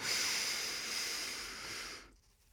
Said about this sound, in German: Also, ein letztes nochmal. Tief einatmen.